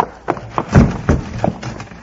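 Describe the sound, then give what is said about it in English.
Hoofbeats of a horse galloping fast down a street with a rider in the saddle, a few heavy uneven thuds standing out over a low rumbling background. “it's Pop riding down the street bent for leather”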